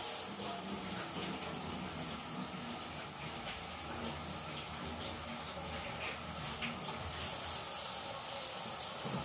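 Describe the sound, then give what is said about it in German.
Water runs from a tap while hands are washed under it, a steady, continuous hissing rush at a moderate level with a faint splashing texture. “Jetzt muss ich mir schon wieder die Hände waschen. Das tut mir leid.”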